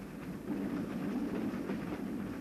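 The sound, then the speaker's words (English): A train leaving Cusco, Peru, gives a steady, even rumble that holds at a constant level for the whole short stretch, with no voices. “We are leaving Cusco, the sacred city, by train, the first we've taken in South America.”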